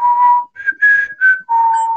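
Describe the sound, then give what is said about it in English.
A person whistles a short tune imitating a ghost's whistle: five clear, loud notes, a long low note, then three higher notes, ending on another long low note, with no talking. “I'll try to whistle. It's like,”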